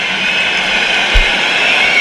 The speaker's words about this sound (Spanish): Aplausos y pitidos, ¿eh?